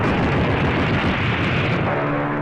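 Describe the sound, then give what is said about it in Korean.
Enemy planes drop bombs and fire napalm and cannon in an air raid, making a dense, loud, continuous roar of rumbling blasts with no clearly separate bangs and no voices. “적기들이 폭탄을 퍼붓고 나팜탄과 기관포를 쐈다.”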